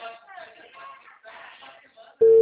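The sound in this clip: Telephone tone after a dropped call: a loud, steady electronic tone cuts in abruptly right at the end, following a stretch of quiet talk.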